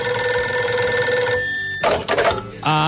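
Telephone ringing on an outgoing call placed by a radio host, a steady electronic ring of bright sustained tones that breaks off and then returns at a different pitch just before the end.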